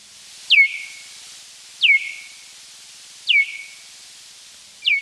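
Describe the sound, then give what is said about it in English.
Bat echolocation calls, recorded, then slowed and pitched down about twentyfold, come through as four evenly spaced, downward-sweeping chirps, each falling quickly in pitch and trailing into a short steady tone against a faint hiss. “this is not normally something that human beings can hear unaided, but through recording and then slowing down the echolocation sounds and lowering the pitch by some 20 times, it does sound like this.”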